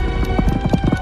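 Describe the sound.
Quick, light clip-clop tapping imitating the Addams Family's Thing, a disembodied hand, scampering along on its fingers: a fast, uneven patter of small knocks over a low hum, lasting about a second.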